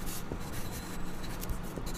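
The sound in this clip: Notes are written by hand, a continuous soft scratching and rubbing of strokes with small irregular accents as the writing moves along.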